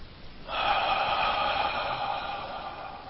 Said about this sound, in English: And let's just close our eyes and take in a deep breath real quick.